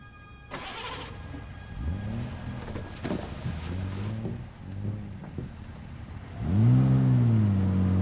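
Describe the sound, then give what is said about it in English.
A car engine revs as the car drives off, with a few rising and falling revs in a row and a louder, sustained surge at the end, over steady background noise. “He just drove off.”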